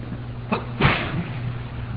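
A single sharp sneeze bursts out over a steady low background hum.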